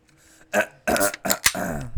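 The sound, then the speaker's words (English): A person's cough, heard as a few short, rough throat bursts in quick succession. “That was just a cough.”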